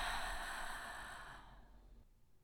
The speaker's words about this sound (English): Sucking in a little bit more breath at the top, holding and letting it go with a sigh.